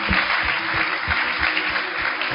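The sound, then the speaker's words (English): A church audience claps in praise during a healing service: loud, continuous applause from many hands, steady throughout with no voices over it. “Clap for Jesus. Clap for Jesus.”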